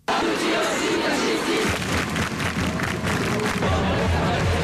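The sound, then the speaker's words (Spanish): Loud crowd noise from a student protest demonstration in Paris, with many voices shouting and cheering together in a continuous, dense roar. “Escuchamos el sonido de la manifestación estudiantil en la capital, en París, la más numerosa de las convocadas este martes.”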